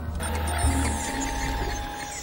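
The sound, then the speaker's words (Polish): A printer runs with a steady mechanical whir and light ratcheting clicks, holding an even hum throughout with no voices. “To jest jakaś taka drukarka chyba. Co to jest?”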